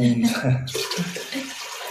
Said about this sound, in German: Und ja, wir müssen mit Wasser dreimal mehr auffüllen